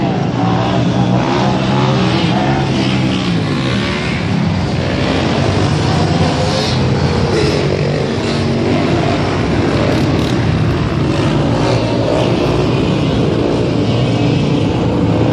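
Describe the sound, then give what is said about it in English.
Loud, steady engine roar from motorbikes riding with a police escort, a dense continuous drone that holds at the same level for the whole stretch with no gaps or clear separate pass-bys. “these motors are so loud. Are these bikes?”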